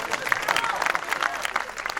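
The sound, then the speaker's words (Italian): Audience applause greets a newly introduced band member at a live show, a dense steady patter of many hands clapping at moderate level with crowd noise, no speech over it. “un applauso”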